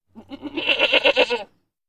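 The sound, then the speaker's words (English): A goat bleats once in a loud, wavering cry lasting over a second, its pulsing tremble rising in strength through the middle and then cutting off cleanly, with no other sounds around it. “Goat.”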